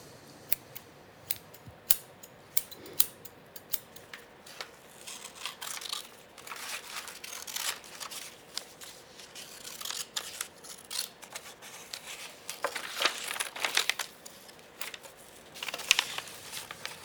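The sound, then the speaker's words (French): Sharp snips of scissors cutting, many quick irregular clips and rustles scattered throughout, fairly faint and without voices. “Un peu d'imagination, de patience, deux, trois outils, tchac, tchac, tchac. Tiens, tu pourrais t'occuper de découper ça”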